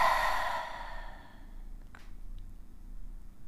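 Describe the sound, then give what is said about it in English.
A deep, breathy exhale during a guided breathing meditation. It starts loud and fades away over about a second, and a faint, brief breath follows in near silence. “Take deep inhalations and deep exhalations. Inhale positivity. Exhale negativity.”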